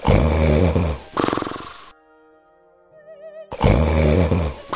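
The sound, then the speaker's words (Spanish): Loud, exaggerated snoring of an ogre: deep rumbling, grunting snores in long heavy bursts, with a quiet, wavering melodic interlude between them before the snoring returns. “Cuando terminó el banquete, volvió a su habitación y enseguida se oyeron unos ronquidos que temblaba toda la casa.”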